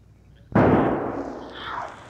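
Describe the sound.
A single rifle shot, fired at a wounded mountain lion, cracks out sharply and leaves a long rumbling decay.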